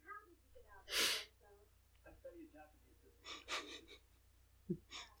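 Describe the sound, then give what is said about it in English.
A sudden sharp sneeze bursts out loudly among quiet talk and breathy sounds, with voices continuing afterward. “Oh, I gotta sneeze.”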